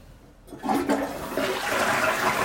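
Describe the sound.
A household toilet flushing. After a brief quiet start, a loud rushing surge of water sets in and keeps roaring steadily to the end.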